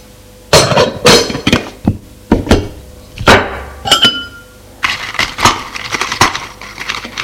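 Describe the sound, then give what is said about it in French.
Many sharp glassy clinks ring out as sugar is stirred into a glass of water. Separate knocks come first, then a denser, quicker clatter toward the end, with no speech. “Et met du sucre. Tourne le verre.”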